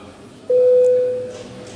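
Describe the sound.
An electronic signal tone calls parliament members to a vote, a single steady mid-pitched beep lasting under a second, clear and loud over a quiet background.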